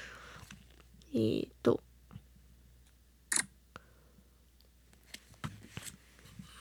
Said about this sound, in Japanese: じゃあ、写真撮っちゃいますね。